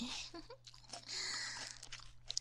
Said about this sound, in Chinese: 黄瓜很清脆的， 很好吃的。 那就是呢。 要不要我咬一口